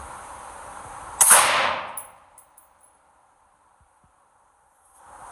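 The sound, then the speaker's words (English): A single loud shot from a semi-automatic AR-15 rifle: one sharp crack with a ringing tail that fades over about a second, a few faint ticks, then near silence. “I'm still holding the trigger back. See, it shoots one round per trigger pull. It is a semi-automatic rifle. That is an AR-15.”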